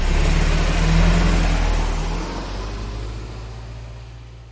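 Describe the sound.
A car engine revs loudly as it pulls away, then eases back to a lower, steady hum that gradually grows fainter. No one speaks.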